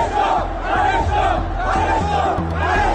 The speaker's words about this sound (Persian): لغو این بازی حساس خشم هواداران سپاهان رو هم برانگیخت و اونها شعارهایی برای جمع کردن مجسمه سلیمانی سر دادن.